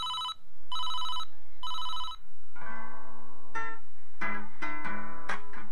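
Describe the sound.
A telephone rings in three bright, buzzing electronic bursts, then music starts with plucked, rising notes.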